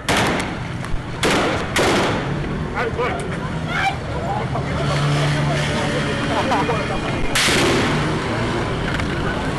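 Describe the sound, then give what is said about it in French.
Gunfire as masked police fire live rounds and tear gas to disperse protesters at a sit-in: a few loud, sharp bangs burst out over a steady roar of voices and commotion, the last bang standing out near the end. “komanse tire ak bal reyel epi vore gaz lakrimojen pou disperse manifestan yo.”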